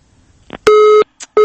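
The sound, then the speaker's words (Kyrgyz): A telephone busy tone after a call connection drops: two loud, steady electronic beeps with a gap between them, preceded by a couple of short, faint clicks. “бизде кайрадан байланыш үзүлүп калды”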